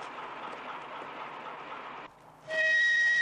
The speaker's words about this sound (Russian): Услышав гудок тепловоза, сталкер бросается к машине.